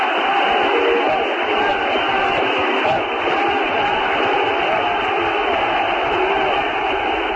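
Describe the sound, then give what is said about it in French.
Crowd of Greek Cypriots cheering Archbishop Makarios's return to Cyprus in Nicosia, December 1974. Many voices blend into a loud, continuous roar that holds steady throughout. “Makarios, nous sommes avec toi. C'est par ces mots que près de 150 000 chypriotes grecs ont acclamé le retour de Mgr Makarios 4 mois et demi après le coup d'État de la junte militaire”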